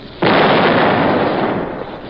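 An artillery shell is fired and explodes short, a dramatized battlefield blast: one sudden loud boom that swells into a broad, sustained roar and slowly fades over about two seconds.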